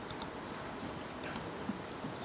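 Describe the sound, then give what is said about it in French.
Faint, sharp clicks from the left button of a computer mouse, arriving as two closely spaced pairs with a pause between them, then a softer tick or two, over a low steady hiss with no talking. “Je clique sur Schneider. Ah, je clique. Regardez, je vais cliquer avec le bouton gauche.”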